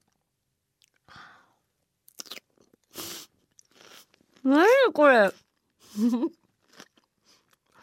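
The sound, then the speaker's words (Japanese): Crisp crunching as someone bites into fresh highland vegetables from a cutlet bento. A few sharp, irregular bites land first, then a voice exclaims briefly amid a little more crunching. “いい音。CM かと思った自分で。何これ。歯が折れるかと思った。何この野菜のシャキシャキシャキ。”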